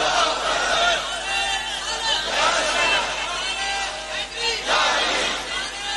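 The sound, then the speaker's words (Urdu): An audience at a devotional poetry recitation raises a slogan together. Massed voices swell in a few loud surges with rumbling crowd noise between them. “کرسی سے کوئی سرکار کا چاہنے والا نعرہ لگا دے”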